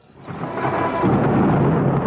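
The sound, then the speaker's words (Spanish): Thunder in a nighttime storm with lightning striking nearby: a deep rumble that swells from quiet to loud over about a second, then rolls on heavy and sustained. “Los relámpagos se estrellan en los alrededores como espadas luminosas que rasgan las sombras de la noche.”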